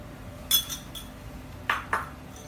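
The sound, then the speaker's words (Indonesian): Light metal clinks of a teaspoon against a container as half a teaspoon of coffee is added for a blended drink; a few short, bright chinks, faint and separated by quiet. “Lalu kita tambahkan 1/2 sendok teh kopi. 1/2 sendok teh segitu ya.”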